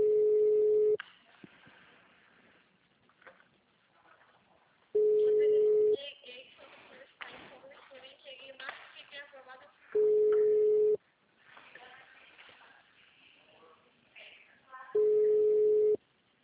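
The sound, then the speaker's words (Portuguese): Telephone ringback tone on an unanswered call: four steady one-second beeps spaced about five seconds apart, with a person talking in the gaps between them. “Eu tô ligando, Vanessa, ninguém atende.”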